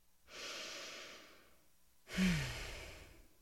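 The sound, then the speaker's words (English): A person takes one deep breath: a slow, soft inhale, a short pause, then a longer, louder sighing exhale. No one speaks. “Now let's begin by taking a deep breath”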